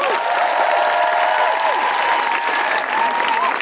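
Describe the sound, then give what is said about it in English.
Sustained applause from a live audience welcoming guests on stage, a dense, even wash of many hands clapping, with a few whoops rising above it. “Please put your hands together and make an enormous Guilty Feminist welcome for Aloysius and Doris.”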